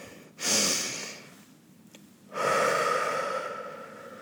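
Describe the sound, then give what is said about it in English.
A deep breath, with a strong, airy inhale followed after a short pause by a longer, slow exhale, both soft and breathy with no talk. “the very first thing that I have to say, you got to be able to do this is to take a deep breath”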